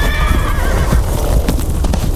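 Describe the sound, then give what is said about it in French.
Horses rear violently along a dry creek bed, loud wavering neighs rising over a dense, continuous clatter of stamping hooves. “soudainement, leurs chevaux s'encabrent violemment.”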